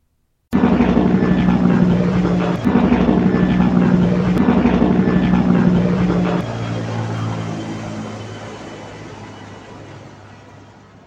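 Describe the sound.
An airplane flies past in a sound effect: a loud, steady engine drone with a low hum starts abruptly, drops in level partway through, then slowly fades away.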